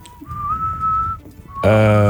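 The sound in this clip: Whistling from a played rock song: a clear, sustained whistled note steps slightly higher and holds, then a short whistled note follows before a loud, rich tonal passage cuts in abruptly.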